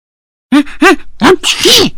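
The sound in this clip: A human voice acts out a hamster sneezing after a blade of grass tickles its nostril. A few rising, gasping intakes build up to a loud, breathy sneeze burst.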